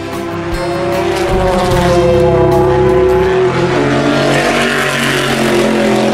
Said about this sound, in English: 3 hours left of 24 hours of racing at Circuit de la Sarre.